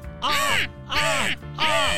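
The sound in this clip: Goose honking from a goose that lays golden eggs as it is carried into a kitchen to be killed: three loud, harmonic honks in steady succession, each arching up then down in pitch.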